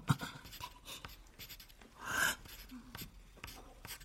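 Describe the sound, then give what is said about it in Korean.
Scratchy writing on paper after a name is erased, a run of short uneven strokes with a fuller, louder burst midway, all fairly quiet. “이름을 지우고 뭐라고 적는 거야?”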